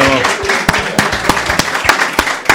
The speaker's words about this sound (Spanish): Un fuerte aplauso.